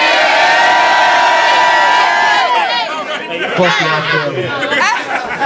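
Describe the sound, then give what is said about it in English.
A crowd at a rap battle event makes noise, with loud shouting, cheering and chatter. A sustained tone near the start fades out, and the roar of voices then continues unevenly to the end. “Make some noise for Staten Island, man.”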